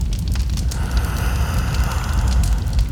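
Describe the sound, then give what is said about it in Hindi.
A deep, continuous rumbling roar with crackling noise follows a gas explosion in a house where a gas pipe was cut. It stays loud and steady throughout, with no voices. “थोड़ी ही देर में blast हुआ”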